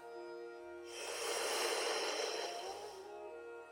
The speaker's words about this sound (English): Inhale, bring your hands up. Turn your palms down, exhale, moving the hands, making the sound he.